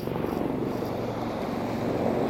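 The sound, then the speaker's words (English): A helicopter circling overhead gives a steady, broad, low rumbling drone with a faint pulsing texture that holds evenly throughout, with no voices. “The helicopter. What he's doing, he's circling.”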